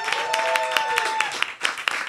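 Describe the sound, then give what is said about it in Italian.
Audience applause welcoming a comedian onstage at a live comedy evening, a dense, steady patter of many hands clapping that dips briefly before surging again. “Mico Pugliares, fate un applauso fortissimo”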